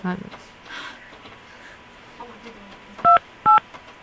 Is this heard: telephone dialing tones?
yes